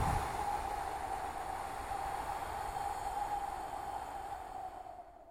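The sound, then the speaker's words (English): A slow, deep breath is let out during a breathing exercise, a long, steady, soft airy rush that holds even for several seconds and then fades away. “So it should sound something like this. Hold for a second or two, and then exhale.”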